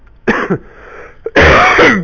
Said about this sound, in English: I've been carrying a dreadful cough for the last several days, so I'll be doing a fair bit of coughing and spluttering, I'm afraid.